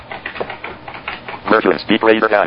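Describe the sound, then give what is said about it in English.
Computer keyboard typing as DOS commands are entered: quick clicking keystrokes, with a voice speaking over the later part. “And I'll type in pk unzip.”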